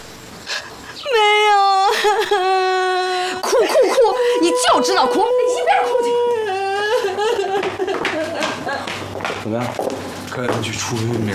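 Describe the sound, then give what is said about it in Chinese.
A person cries and wails loudly in long, quavering, moaning tones that waver in pitch and break into sobbing bursts, continuing throughout. “哭哭哭！你就知道哭，你一边哭去。”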